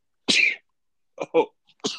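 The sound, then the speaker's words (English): A person sneezes once in a sharp, loud burst. After a pause come a few shorter, breathy sounds. “I don't have a sneeze button. Excuse me, folks.”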